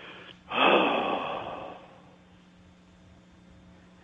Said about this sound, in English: You may need to breathe more than three times, but at least three.